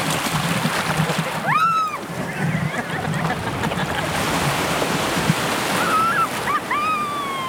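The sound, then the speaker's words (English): A surfboard is paddled through ocean waves, with a constant loud wash of surf and sloshing, splashing water going on throughout. “Just start to paddle now. Slow and steady, building up some speed. Picking up the pace. Power paddle now.”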